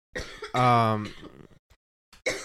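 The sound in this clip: A person clears dust from their throat: a rough, voiced rasp, then shorter throaty bursts, a brief pause, and one final clearing sound.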